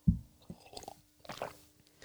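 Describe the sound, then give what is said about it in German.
Drinking and swallowing: a few wet gulps and soft mouth clicks, fairly quiet and irregular, with no talking. “wenn ich trinke, dann tönt das so”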